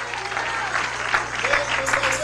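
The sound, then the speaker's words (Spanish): Church audience applauding: continuous, dense clapping with voices calling out over it and a steady low hum underneath, holding at a fairly even level. “Dele ese aplauso al Señor.”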